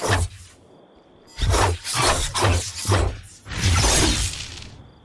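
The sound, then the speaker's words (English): Video game sword sounds from an adaptive-frame heavy sword that deals arc damage: several sharp, crackling swipes and impacts with whooshing, shattering tails, separated by brief gaps, over a faint steady high tone. “we've come to our last moon weapon, which is the Night Terror. It's a sword. Let's give it a listen.”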